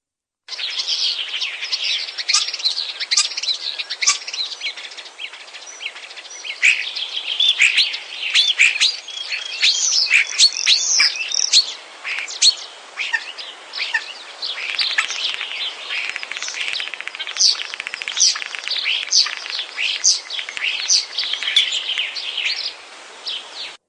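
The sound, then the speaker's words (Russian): Starlings sing in a dense, continuous stream of high chirps, whistles and chattering notes, lively and unbroken from start to finish, with no voices. “Из всех певчих птиц, пожалуй, самая близкая к человеку птица — это скворец.”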